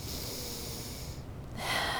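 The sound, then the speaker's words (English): Deep breath in and out during a guided breathing exercise, heard as a faint, airy rush of air. A short gap sits between the two breaths, and the second is slightly stronger, with no talk. “And let's take a deep breath in”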